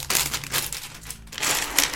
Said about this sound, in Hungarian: Kibontottam a 15-ös zacskókat, úgyhogy tényleg most már itt vagyunk a finisében a LEGO hírharsonának.